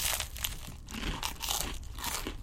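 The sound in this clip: Crunching on bread toasted until black, bitten and chewed while tasting it: many faint, dry, crackly crunches in an irregular rhythm, with no talking.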